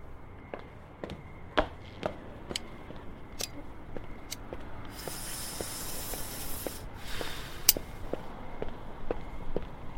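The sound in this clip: Footsteps of someone walking away: many faint, evenly spaced clicking steps in a steady rhythm. A brief hiss rises midway and fades.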